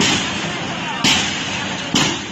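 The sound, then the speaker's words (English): Police flash grenades bang while clearing streets outside a hospital in Yangon: a few sharp, loud blasts cut through a steady wash of noise, each striking hard and then fading. “Here are police outside one hospital in Yangon, clearing the streets with flash grenades.”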